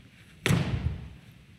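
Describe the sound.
A foot stomps on a box and crushes it, making one sharp thud with a brief crunch that quickly fades. The sound is faint overall, and no one talks over it.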